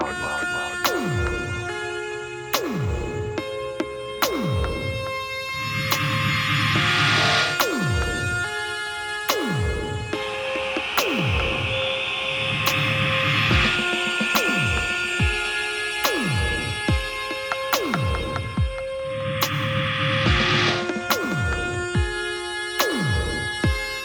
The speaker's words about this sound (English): Let me just shut up, put the record on for you, drop the needle, and crank up the fucking volume.